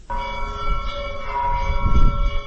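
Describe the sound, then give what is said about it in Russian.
Cathedral bells in Kutaisi ring for morning service, a continuous, resonant peal of sustained metallic tones with a low rumble beneath, steady and loud throughout, with no voices. “Кутаиси будят колокола храма Баграта. Звон разносится на километры вокруг, проникая в дома горожан, призывая их на утреннюю службу.”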